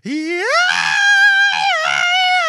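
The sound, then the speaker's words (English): A man screams a high note. His voice slides swiftly upward, then holds a loud, strained pitch with slight wavers for over two seconds. “I'm going to be screaming. And I'm going to be hitting that high note.”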